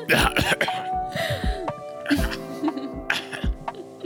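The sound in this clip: Harsh throat clearing and coughing come in a few rough bursts with strained vocal groans between them, fairly faint overall.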